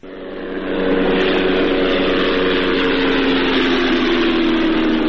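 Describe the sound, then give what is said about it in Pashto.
An unmanned drone aircraft flies overhead in Ghazni province, Afghanistan, a loud, steady droning hum that swells up within the first second and then holds an even, unbroken tone. “دا د هغه بې پیلوټه الوتکې غږ دی چې پر افغانستان د طالبانو له حاکمیت څخه وروسته هم د غزنی ولایت تر څنګ د پکتیا، پکتیکا او ځینو نورو ولایتونو په هوا کې ګرځي.”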